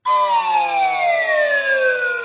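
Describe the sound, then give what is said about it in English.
The Wheel of Fortune bankrupt sound effect, a loud, sustained, buzzy harmonic tone sliding steadily downward in pitch for about two seconds, heard alone. “bankrupt. It's Wheel of Fortune bankrupt.”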